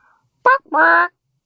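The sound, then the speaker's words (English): A person imitates a chicken call with two voiced squawks, a short sharp cluck followed by a longer, steadier, sustained cry. “What do you think your chicken name would be? I think mine would sound something like this.”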